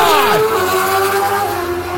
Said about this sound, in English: Dude, look at those bikes. That's ridiculous.